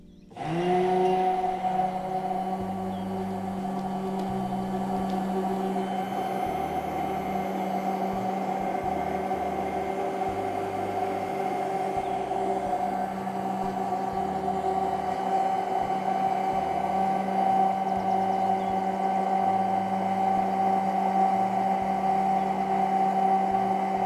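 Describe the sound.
Blender running at maximum speed and full power while mixing an emulsion, a loud continuous whirring motor drone with steady humming tones that holds constant after a quick start.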